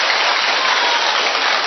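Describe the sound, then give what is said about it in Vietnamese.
Congregation applause fills a church during a celebration honoring Saint Paul as patron: a dense, steady wash of many hands clapping at once, loud and continuous without clear gaps. “Chúng ta đốt một tràng hoa tay thật lớn để chúc mừng tất cả những cá nhân và tập thể nhận Thánh Phaolô làm bổn mạng. Một tràng hoa tay thật to, thưa anh chị em.”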